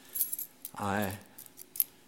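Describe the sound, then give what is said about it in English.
Car keys jangle in a few brief, bright metallic bursts. A short voiced sound comes in the middle, and the jingling is faint and scattered around it. “There's my keys to my car.”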